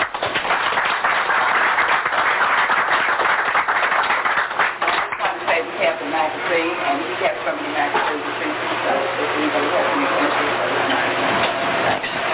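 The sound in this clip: Audience applause welcoming a guest speaker at a lecture, a dense, loud wash of clapping for about five seconds that thins out as a man starts talking.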